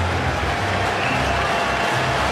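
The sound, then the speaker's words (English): A baseball crowd on its feet cheers on a pitcher in the top of the seventh inning, a loud, steady roar of voices and clapping blending into continuous noise. “And now the crowd on their feet trying to coax Gausman through this top of the seventh inning.”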